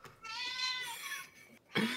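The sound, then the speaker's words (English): A cat meows in a faint, drawn-out, tonal cry that wavers in pitch, followed by a brief pause and the start of another short sound. “I don't have a baby. It's a cat.”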